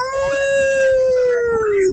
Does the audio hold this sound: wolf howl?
yes